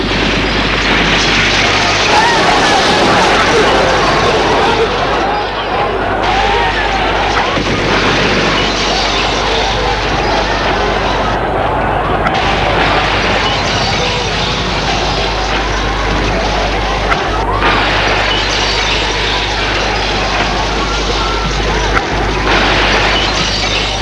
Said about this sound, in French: À Lyon, le centre commercial de la Part-Dieu, des bombes ont explosé et créé la panique.